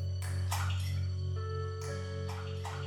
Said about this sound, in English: This sound, this means that while we are moving through this room, we are walking into something aqueous.